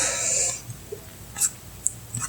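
A deep inhale, a loud airy hiss lasting about half a second at the start, followed by near-silence with a few faint soft clicks and breath noises.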